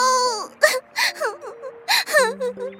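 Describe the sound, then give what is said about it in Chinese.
An acted voice imitates a little princess crying in the Frog Prince tale, short wailing whimpers and sobbing phrases that bend up and down in pitch, repeated in a broken rhythm and fairly loud. “是小公主，你怎么了？哭得这么伤心”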